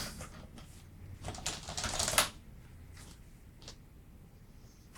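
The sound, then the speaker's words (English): Keystrokes on a computer keyboard as a password is typed at a locked screensaver: a rapid run of clicks that builds to a louder, dense cluster, then fades to fainter scattered taps. “So I can't end the podcast because my screensaver kicked in and I didn't type my password right. But if I type it 3 times, it'll probably give me a hint.”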